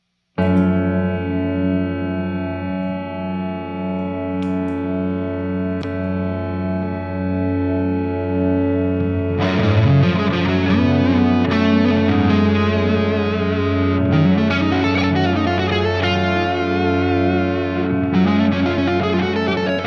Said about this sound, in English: that drone of the freeze pedal sound. So I can showcase that now.